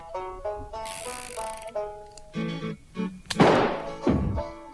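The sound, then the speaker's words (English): A revolver loaded with a single bullet has its cylinder spun and its hammer cocked. Rapid mechanical ratcheting clicks are followed by two louder, harsher metallic bursts near the end. “One bullet in chamber. Spin cylinder. Cock the gun. Haul the gun to your head and pull the trigger.”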